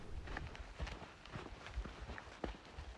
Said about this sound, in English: This is the sound of me hiking back this morning.